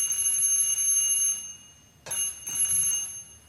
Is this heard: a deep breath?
no